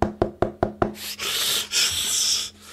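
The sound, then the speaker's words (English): Five sharp knocks on a door in an even, quick rhythm, then a sustained rough rubbing and shuffling noise that runs to the end. “Knock, knock, knock.”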